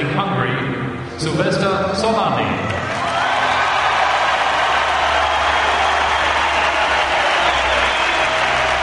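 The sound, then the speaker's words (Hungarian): Applause at an Olympic gymnastics medal ceremony as champion Szilveszter Csollány receives his gold medal. A steady, dense wash of crowd clapping follows a brief stretch of talking at the start. “Csollány Szilveszternek szólt a taps, az olimpiai bajnoknak, akinek ebben a pillanatban akasztják a nyakába az aranyérmet.”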